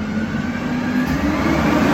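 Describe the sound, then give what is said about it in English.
A garbage truck outdoors in Hawaii gives off a steady, loud engine drone with a low rumble and broad hissing noise that holds level throughout. “I'm outside in Hawaii, and that was a garbage truck.”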